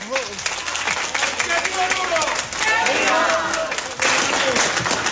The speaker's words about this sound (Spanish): Yo quiero en este momento pedir un aplauso